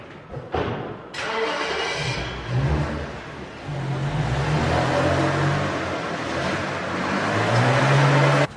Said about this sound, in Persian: مالک با عجله سوار ماشینش میشه.